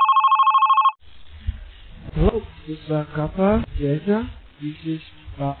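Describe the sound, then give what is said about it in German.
A telephone rings with an incoming call: a rapid, warbling electronic trill lasting about a second, then it stops and a voice starts speaking. “Verzweifelt ruft Kofi Annan an.”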